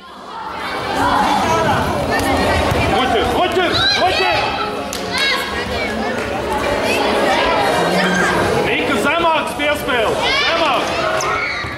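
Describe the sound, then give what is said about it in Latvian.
A crowd fills a dodgeball game court with loud, dense atmosphere: overlapping chatter, shouts and excited voices stay constant throughout. “paklausīsimies, kāda noskaņa valdos tautas bumbas spēles laukuma.”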